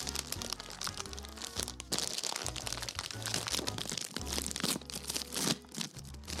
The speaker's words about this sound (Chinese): 那我现在来开箱一下 嗯 七七脆家的回甘糖心子。